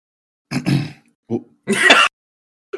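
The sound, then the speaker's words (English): Throat clearing, several short, gruff, guttural bursts separated by brief pauses, fairly loud, with no talk over them. “The throat clear.”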